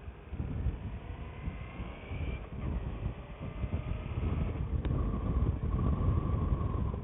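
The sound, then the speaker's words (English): A V-twin motorcycle engine runs with a low, continuous rumble under steady wind noise, growing slightly louder toward the end. “And I sure hope the ambient sound of the motor comes through. I love the sound of the V-twin on this bike.”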